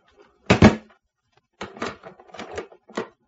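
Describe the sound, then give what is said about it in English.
A door lock clicks shut on a small room: a heavy clunk first, then after a pause a few lighter metallic clicks and rattles, with nothing else around them. “The click of the lock was an unpleasant sound somehow.”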